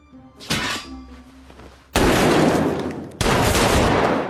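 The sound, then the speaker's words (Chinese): Two loud gunshots blast out in a tense indoor standoff, each a sharp full crack with a lingering tail. A softer thump sounds before them. “杰哥又在阿伟身上补了两枪”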